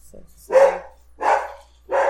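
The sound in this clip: A dog gives three loud, clear barks evenly spaced under a second apart. A brief faint yip comes just before the first.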